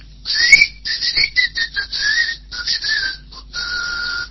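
Whistling imitating snakes hissing: many short, high whistles in an uneven, broken run, some sliding and some held briefly, fairly loud and without talk.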